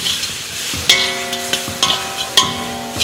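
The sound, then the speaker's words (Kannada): Grated coconut, turmeric and asafoetida fry in a pan with a steady, loud sizzle, broken by several sharp metallic scrapes as a spoon stirs against the pan. “1/2 ಟೇಬಲ್ಸ್ಪೂನಷ್ಟು ಅರಶಿನ, ಸ್ವಲ್ಪ ಇಂಗು, ಇದನ್ನು ನೀಟಾಗಿ fry ಮಾಡ್ಕೋಬೇಕು.”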